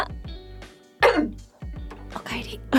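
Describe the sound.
A person coughs a few times in short, rough bursts mixed with voiced throat sounds, moderately loud and close.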